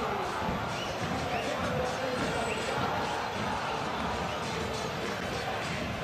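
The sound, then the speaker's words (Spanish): Boca Juniors fans at Defensores del Chaco stadium roar in a dense, continuous wall of crowd voices that stays loud and steady throughout. “en la radio, en el stream, cantan los hinchas de Boca en el Defensor del Chaco, escuchá.”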